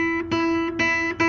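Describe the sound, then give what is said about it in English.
A guitar's open high E string is plucked repeatedly, each note ringing as a clear, bright, steady tone before the next pluck. “Let me resound the high E note just for those that didn't hear the first time. That's the high E note, the high E note, record that.”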